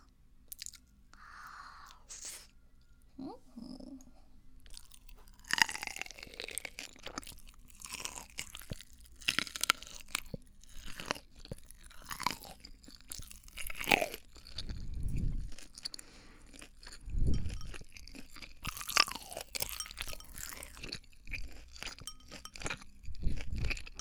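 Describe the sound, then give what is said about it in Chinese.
A person chews and eats crunchy food, making many irregular, faint crunching bites and chewing sounds, with some louder crunches in the second half and no talk. “过敏的话，你就看着我吃。”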